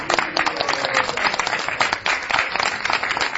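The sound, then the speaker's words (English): Audience applause at a Hare Krishna gathering: dense, steady clapping from many hands that holds at an even level throughout. “Let us please give a loving applause for our”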